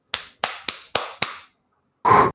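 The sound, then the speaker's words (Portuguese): Hand claps ring out as five sharp, separate smacks in an even rhythm, each with a short decaying tail, followed after a pause by a brief, dense noisy burst. “Bater uma palma aqui.”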